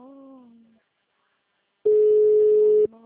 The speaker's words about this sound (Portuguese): mensagem gratuita de telefone ocupado. Aguarde alguns minutos para voltar a ligar.